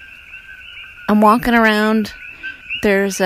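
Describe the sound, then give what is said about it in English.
Coqui frogs call at night at the grassy edge of a property, a steady high-pitched chorus of overlapping piping tones that runs throughout while a man talks over it. “All that noise you're hearing, that's cookie frogs.”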